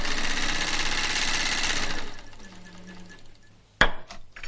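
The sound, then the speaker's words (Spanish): A sewing machine stitching fast and evenly for about two seconds, then stopping. Quieter low sounds follow, and a single sharp clack comes near the end. “Se lo lleva a la tía que cose a máquina junto a Rosa.”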